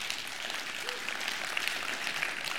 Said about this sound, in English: You can clap for that.